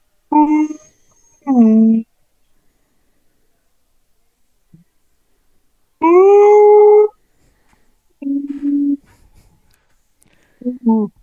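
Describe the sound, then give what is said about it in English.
A man's voice imitates a wolf howl, calling from a hunting blind through an opened window: a few sustained, tonal vocal calls separated by silences, the longest lasting about a second. “I gave 2 of the biggest, longest howls I could give, and I closed that window up and I went, you are the loudest wolf caller I've ever heard.”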